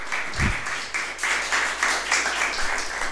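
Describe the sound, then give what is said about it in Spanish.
Audience applause at a gathering in a worker-occupied former supermarket greets a welcome speaker: dense clapping that pulses in a steady rhythm throughout, with one dull low thump near the start. “Fuerte el aplauso para Carlos.”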